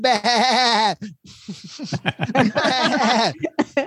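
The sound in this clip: A man imitates a goat bleating with a loud, quavering, nasal voice for about a second, followed by choppy bursts of laughter.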